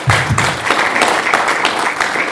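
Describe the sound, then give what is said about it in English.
Audience applause for a panel at the close of a discussion: dense, steady clapping that stays loud and even throughout, without pause. “Thank you very much. Let's clap for the panel.”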